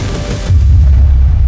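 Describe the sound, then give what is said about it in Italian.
Deep boom of an Iron Dome interceptor missile exploding beside a rocket, a loud low rumble that swells partway through and then holds steady to the end. “ma ecco che entra in azione il sistema antimissilistico israeliano Iron Dome. Un missile viene sparato quasi istantaneamente per intercettare il razzo, gli si avvicina e appena gli arriva accanto”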